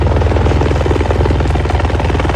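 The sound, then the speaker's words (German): Steady, loud rotor thrum and chop from police helicopters ferrying firefighting water from the Mondsee to a hut fire, a continuous rhythmic beat running unbroken through the whole clip. “Es sind auch 2 Hubschrauber der Polizei vor Ort, die uns vom Mondsee ein Löschwasser bringen.”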